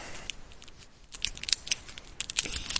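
A trading card pack is torn open with crisp crinkling of the wrapper and sharp, irregular clicks and rips. The sounds grow busier toward the end, with no voices.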